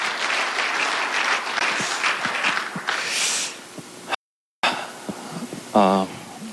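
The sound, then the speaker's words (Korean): An audience at an economics seminar applauds to welcome a speaker. A dense, steady burst of clapping fades out, and after a brief silence a voice speaks. “최윤식 원장님을 큰 박수로 맞아주십시오.”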